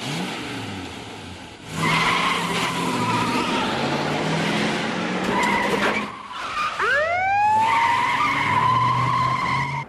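Tires screech as a car speeds away from a burger joint. A loud, sustained roar of engine and skidding noise briefly dips, then a shrill rising squeal with ringing harmonics cuts over the continuing engine.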